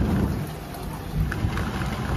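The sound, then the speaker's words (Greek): Rain and thunder from a storm sweeping across the south and west of England overnight: a dense, steady wash of rainfall with a deep low rumble that swells around the middle, continuous throughout with no voices. “First came the storms sweeping across the south and west of England overnight.”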